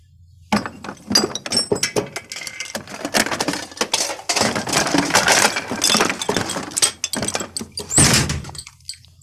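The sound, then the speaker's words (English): A bathroom mirror cabinet above a sink is opened and rifled through: dense clattering, clinks of small objects and knocks of shelves and door, continuous and busy throughout. “It's when he's upstairs in the bathroom. He opens up the mirror above the sink and he rifles through it.”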